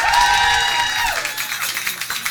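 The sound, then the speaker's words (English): Audience applause, measured by an applause meter in a contest, fills the second half. Scattered claps follow a sustained tonal sound at the start and become the main sound as it fades. “Did we get the clear round of applause? Yes.”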